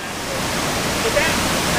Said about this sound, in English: That's plant supervisor David Weber, standing above the 54-inch pipe that delivers sewage into the plant